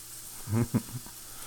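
Food sizzles in a pan during cooking, a soft, steady hiss that runs the whole time.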